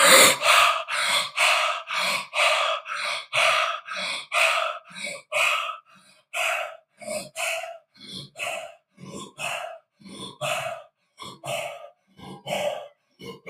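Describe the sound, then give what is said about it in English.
Deep cyclic hyperventilating breaths from a breathing exercise: many loud, forceful, rhythmic rushes of air in quick, even succession, with no talk. “we're going to go right into our third round of Wim Hof, 30 deep cyclic hyperventilating breaths.”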